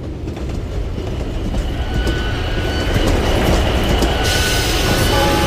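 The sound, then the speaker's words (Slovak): An express train arrives at the first platform of a station with a loud, steady rumble and rolling wheel clatter that grows stronger. A high hiss or squeal joins near the end. “Na prvom nástavišti pozor. Rýchlik, Zemplín do Margecian a Kisaku prichádza na prvé nástavište.”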